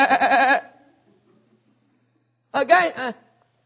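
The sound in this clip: Sheep bleating: two wavering, quavering bleats separated by about two seconds of near silence, the second slightly shorter than the first.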